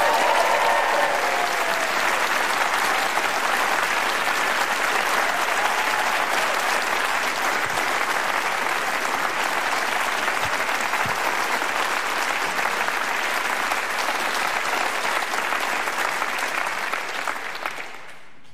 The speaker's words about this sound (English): Ladies and gentlemen, a big round of applause for the awesome John Grant.